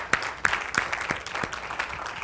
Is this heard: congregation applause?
yes